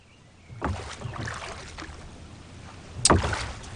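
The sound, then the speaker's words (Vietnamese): Oars dipping and pulling through water as a boat is rowed: two splashing strokes, the second sharper and louder, with soft water swishing and rippling between them. “Chèo như vậy đâu có đúng. Xoay vòng.”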